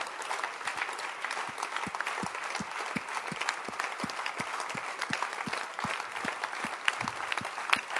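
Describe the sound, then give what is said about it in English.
Steady audience applause at a religious gathering: dense, sustained clapping with no let-up, over a regular pulse of low thumps running through the whole stretch. “Keep clapping, baby.”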